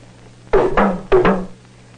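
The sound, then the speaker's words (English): Small hand-held talking drum beaten to send a short message, its pitch changed by pressing on the drumhead: two quick double strokes, sharp and resonant, each pair ringing briefly before fading into near silence. “This small drum is used for sending messages short distances. The pitch of the drum is changed by pressing on it.”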